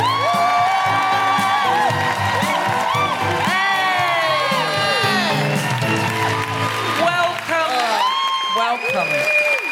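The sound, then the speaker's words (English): A studio audience applauds and cheers to welcome a guest, with sustained clapping, whoops and shouts layered over tonal, voice-like sounds throughout. “Put your hands together and make incredible welcoming noises for Tabasum Nearmat.”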